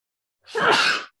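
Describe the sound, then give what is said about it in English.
A single sneeze, one brief, loud, breathy burst heard alone against silence. “Yep, that was a sneeze, and I'm not using my editor.”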